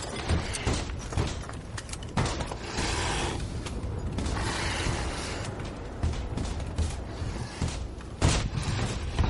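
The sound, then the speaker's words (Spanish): A gun is loaded in the dark, giving mechanical clicks, ratcheting and creaks inside a dense, noisy thriller scene, with no voices. “En la oscuridad, Patrick intenta cargar un arma y Jack está detrás muy asustado, con los ojos húmedos.”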